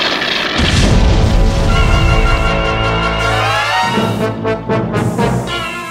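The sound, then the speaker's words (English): A robot firing blasts from its claws: a loud, sustained booming discharge with a rich buzzing tone, running for several seconds before breaking into a few sputtering bursts near the end. “B9 gets the jump on the dastardly dame and fires a devastating double shot from his claws”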